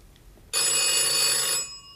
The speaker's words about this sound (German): Telefon.